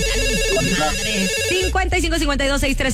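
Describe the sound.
Telephone ringing with a loud electronic ringtone: a repeating melodic pattern of bright tones that holds steady throughout.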